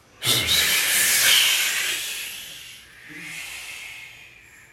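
Forceful breath blown out hard during a kneeling yoga breathing exercise: one long, loud hissing exhalation that fades gradually, followed by a softer second breath out.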